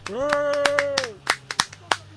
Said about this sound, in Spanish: Desde aquí, un aplauso.